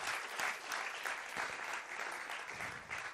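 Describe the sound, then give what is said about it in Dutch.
A church audience claps to thank the video crew during a bilingual English–Dutch service. The applause is faint and continuous, an even wash of many hands lasting a few seconds. “Come on, let's give the video crew a big hand. Laten we de video mensen een applaus geven.”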